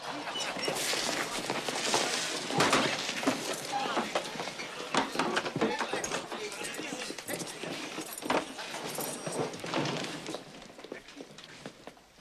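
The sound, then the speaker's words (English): Stagecoach horses gallop up and halt outside a cantina, a busy clatter of hooves and rattling coach with many sharp knocks that thins out toward the end. “A stagecoach gallops up and stops outside the cantina.”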